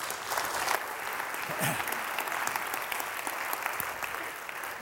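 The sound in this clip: An audience claps to welcome a speaker: dense, steady applause that runs for about five seconds and eases slightly at the end.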